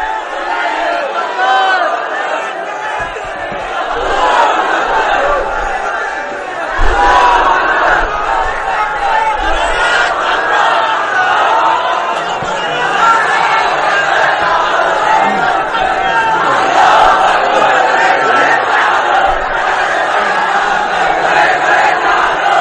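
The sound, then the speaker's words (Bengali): A crowd at an Islamic gathering chants slogans in unison, a loud, continuous mass of many voices that swells and surges rhythmically throughout. “এই যে উঠতেছে এরা, দুই চারজন ওঠা শুরু করছে, এদের কি লাগবে? স্লোগান লাগবে। স্লোগান দেন একজন।”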